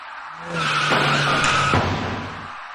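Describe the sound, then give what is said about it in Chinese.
Car tires screech in a skid at a city intersection at night, in a collision between a car and an electric bicycle; a single loud, steady squeal holds for over a second before fading, with no voices. “就在这时，一起严重的交通事故发生了。”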